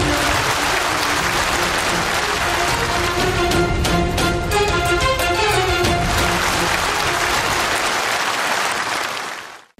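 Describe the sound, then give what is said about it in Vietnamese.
An audience at a Buddhist stage program gives sustained, loud applause to welcome a guest. The clapping stays dense and even for about nine seconds, then quickly fades out. “xin mời quý Phật tử cho một tràng pháo tay để chào mừng Phật tử Kha Thanh Vân đến với chương trình Hoa Mặt Trời lần thứ 13.”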